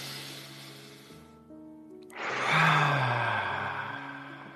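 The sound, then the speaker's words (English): A deep breath, the large fifth breath of a guided breathing round, rises as a long airy rush about halfway through and slowly tapers, over soft, low, sustained tones. “This 5th breath is twice as large.”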